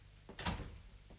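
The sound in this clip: A door is closed with a single soft thud and brief scrape, faint and short, with no voices.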